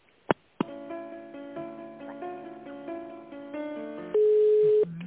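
Telephone line tones play while a call is transferred: two sharp clicks, then a steady electronic tone pattern with shifting notes, ending in a louder, steady single tone.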